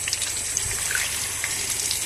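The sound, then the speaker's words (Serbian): Tap water pours into a small pot as a continuous, even rushing hiss, steady in loudness without breaks from start to finish. “a za to vreme u drugo lonče sipamo vodu sa česme.”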